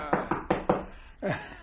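Knocking at a door in an Egyptian radio drama: four quick, evenly spaced raps, then a short, louder sound.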